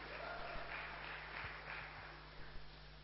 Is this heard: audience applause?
yes